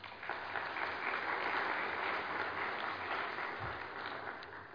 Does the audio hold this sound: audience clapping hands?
yes